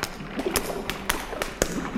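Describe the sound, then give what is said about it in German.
Someone tries a locked door: several sharp clicks and light taps of the handle come at irregular intervals. They are fairly faint over a steady background hiss. “Die erste Tür ist schon mal verschlossen. Die zweite auch.”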